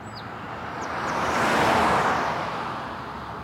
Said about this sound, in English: Let's join Judah and his family as they drive up the road to Discovery Mountain Camp.